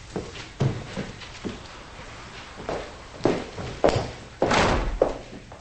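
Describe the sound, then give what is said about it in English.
Footsteps of a woman climbing stairs: a string of irregular, dull thuds, some louder and heavier than others, with quiet gaps between. “She goes upstairs.”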